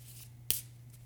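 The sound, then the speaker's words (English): A card is flipped over, giving one quick, crisp papery snap. A faint low hum runs steadily beneath it. “Let's flip a card.”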